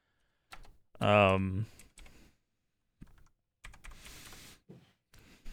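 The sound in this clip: Someone types on a computer keyboard to pull something up, with sparse clicking keystrokes. A brief loud voiced sound comes early, and faint talk is mixed among the scattered taps.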